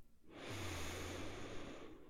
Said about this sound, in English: Let's go ahead and take one more deep, deep, deep breath in.